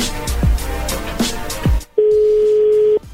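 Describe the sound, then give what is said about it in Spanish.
A telephone call being dialed: noisy clicks and thumps give way to a single steady mid-pitched line tone that holds for about a second and then stops. “A ver, ahí se está marcando de nuevo.”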